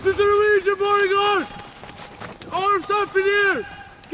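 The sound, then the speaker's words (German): Two military snowmobiles race over snow, their engines giving a loud, tonal whine in several bursts with shifting pitch, separated by a quieter gap. “Zwei Motorschlitten des Militärs schießen über den Schnee heran.”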